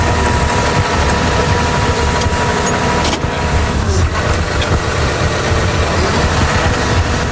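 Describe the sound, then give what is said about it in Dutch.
An excavator engine runs while the machine moves a bucket of sand, a loud, continuous rumbling drone that holds steady throughout without speech. “Ik heb hier op een hele mooie, hoe noemen we dit eigenlijk? Graafmachine. Een bak zand mogen verplaatsen”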